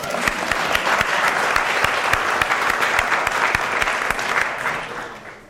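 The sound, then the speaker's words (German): Applause from a crowd after a mention of a couple's long marriage, steady and full for several seconds before tapering off at the end. “Leute, das ist ein Applaus wert.”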